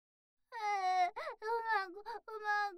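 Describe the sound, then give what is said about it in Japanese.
Whimpering cries from a single voice, several drawn-out, tearful sobs with a wavering, quivering pitch, broken by short catches of breath, heard alone and fairly soft. “ほーらほーら、泣かないの。”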